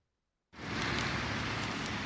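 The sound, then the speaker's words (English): Heavy rain pouring outside in Birmingham, a dense, steady hiss that starts abruptly after a moment of silence and continues loud and unbroken to the end. “Just want to apologize for any background noise. It's absolutely pouring with rain here.”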